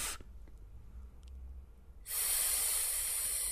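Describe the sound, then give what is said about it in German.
A person voices a breathy hissing "pff": a quiet stretch, then a loud, steady hiss that holds to the end, with a brief hiss at the very start. “Und dann kannst du ja mal ein Pff machen, ein Geräusch. Einfach Pff.”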